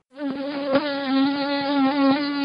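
Steady, continuous buzzing of a mosquito's wingbeats, from a nuisance species that does not carry malaria parasites. The droning whine holds a fairly even pitch with a slight waver throughout and is heard alone.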